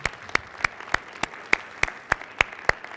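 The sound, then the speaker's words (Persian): Hand clapping in applause during a church sermon, heard as a steady series of sharp, evenly spaced claps with no talking. “رسما با هم ازدواج کردن کاغذشون رو برای من پست کردن تکس کردن جمعه من اونها رو در عهد آسمانی به هم وصل خواهم کرد چقدر خوبه براشون دست بزنید”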